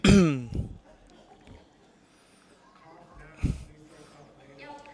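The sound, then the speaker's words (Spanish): Throat clearing from an audience: a few short, rough bursts, the loudest at the very start and another just past the midpoint, with faint murmuring between them. “Despejen su garganta.”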